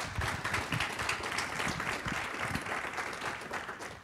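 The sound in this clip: Audience applause welcomes a speaker to a lecture on cancer and nutrition: steady, faint clapping from a crowd that fades off at the end.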